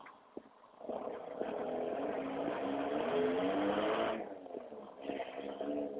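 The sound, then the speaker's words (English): A car drives around outside on a morning newspaper delivery round. Its engine rises to a steady, droning hum, fades near the end, then quietly picks up again, with no voices. “There's this guy driving around delivering newspapers.”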